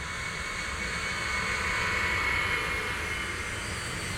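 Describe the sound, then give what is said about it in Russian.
Steady, even roar of an airplane taking off, a broad continuous rush of engine noise that holds at a constant level throughout, with no voices. “Самолет отправился в небо.”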